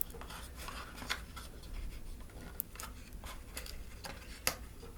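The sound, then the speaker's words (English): Faint rustling and scraping of a warranty card being slid out of a small product box, likely packaging for a Moti X pod device, with a few sharp light clicks over soft, continuous handling noise. “And then the rest, the only thing left, is your warranty card in this box.”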